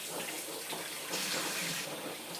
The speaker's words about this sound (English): I hope you can hear me above the running water, sorry. What with that and the dryer? I'm just trying to get the water warm.